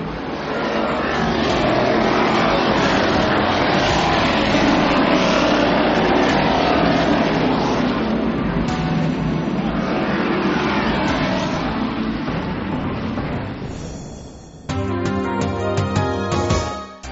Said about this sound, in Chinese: 各位请注意，赛车手们已经发动引擎，猛踩油门，卯足力全速前进。